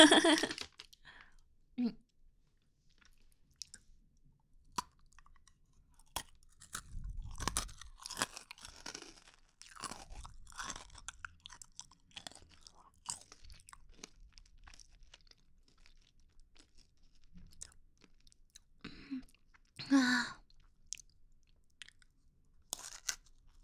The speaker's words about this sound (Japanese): じゃあこっちでももう一本食べますね。食べていいですか？食べよう。